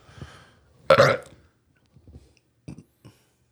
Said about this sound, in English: You okay? That was a burp.